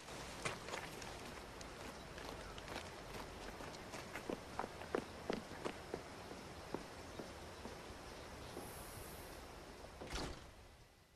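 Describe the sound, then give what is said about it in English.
Footsteps of a person jogging away along a path: many quick, light steps in a fairly steady rhythm, faint above a constant background hiss. “She hands them through the window, then jogs away.”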